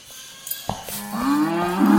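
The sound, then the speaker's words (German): Cattle mooing after breaking loose on a farm: after a few soft knocks, one long, low, drawn-out moo begins about halfway through and swells louder toward the end. “Der Rind hat sich losgerissen. Ich mach's schnell wieder fest.”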